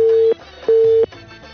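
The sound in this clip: Busy tone after a phone call is cut off: two steady, mid-pitched beeps, each about a third of a second long, with a short gap between them, then faint line noise.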